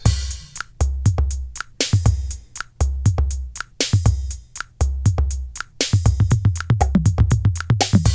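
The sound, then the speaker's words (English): Synthesizer drum beat in a steady repeating pattern of deep booming kicks and sharp, crisp clicky hits, loud and alone with no voices. “I've got a drum beat. It sounds like this.”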